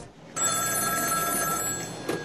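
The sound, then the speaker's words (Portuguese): A telephone rings in a doctor's home: after a brief quiet start, a single sustained electronic ring with bright, steady tones holds for nearly two seconds before easing off. “O médico está em casa quando o seu telefone toca.”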